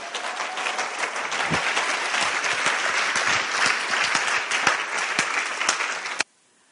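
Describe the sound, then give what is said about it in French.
A church audience applauds to acclaim the word of God in a dense, loud, sustained burst of clapping with a few sharper claps on top, which stops abruptly near the end, leaving near silence. “Alléluia. Est-ce qu'on peut acclamer la parole de Dieu?”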